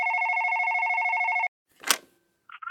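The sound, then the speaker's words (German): Telephone ringing on a call placed to a hospital's stroke doctor during a stroke emergency: a steady, bright two-tone ring for about a second and a half, then a short noisy burst and a few brief electronic beeps. “Also da wird dann der Stroke-Arzt angerufen und die Stroke-Ärztin.”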